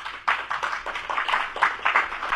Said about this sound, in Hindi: हिमांशु अपनी रचना के साथ मंच पर आ रहे हैं, करतल ध्वनि से स्वागत करेंगे।